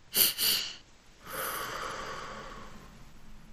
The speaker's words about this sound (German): Du atmest zweimal durch die Nase ein und dann lange durch den Mund aus. Also etwa so.